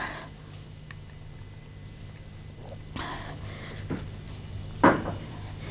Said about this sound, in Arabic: أظن من المستحسن أن أغلق النافذة قليلا، هذا الضوء القوي يتعبك.